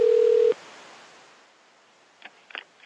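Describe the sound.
A voicemail beep before recording a message: one loud, flat, mid-pitched tone lasting about half a second, then near silence broken by a few faint rustles.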